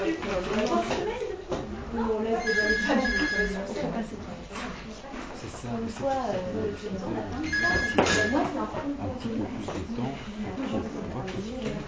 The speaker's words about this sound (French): Ah, c'est le téléphone d'ici.